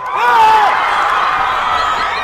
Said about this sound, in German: Der Jubel aber ist überwältigend, als die Gelb-Grünen in Bloemfontein das erste Tor erzielen.